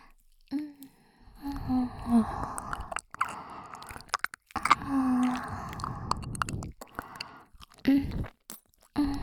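Soft, wet ASMR mouth sounds of an earlobe being nibbled and chewed: quiet, intermittent smacking and squishing bursts in uneven clusters separated by brief silences.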